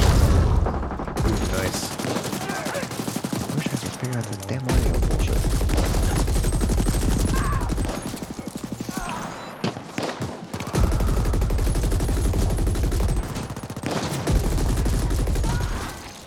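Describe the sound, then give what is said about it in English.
SMG gunfire in a video game, long bursts of rapid automatic shots broken by a few short pauses, loud and dense throughout. “I gotta start bursting with that SMG.”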